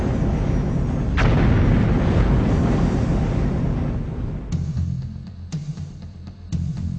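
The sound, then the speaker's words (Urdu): A volcanic eruption sound effect: a deep, loud rumbling roar with a sharp crack early on, then several separate booming bursts near the end. “بڑے بڑے پہاڑ آتش فشانی دباؤ کی وجہ سے پھٹ پڑتے ہیں،”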